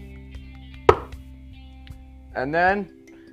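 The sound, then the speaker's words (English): A single sharp knife chop on a wooden cutting board as firm mamaliga is cut into pieces, set against a steady low hum, with a brief voiced sound shortly after. “And we're gonna let it dry on the wooden cutting board, or let it cool down on the wooden cutting board. And as it cools, it's gonna harden. And then you're gonna cut it. It shouldn't move much. And you're just gonna cut it into 6 pieces, like a pizza.”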